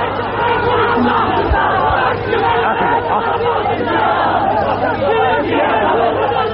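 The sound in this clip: Crowd at a religious rally chanting slogans, a dense, loud mass of many voices that holds steady as one continuous roar for the whole stretch, without clear breaks.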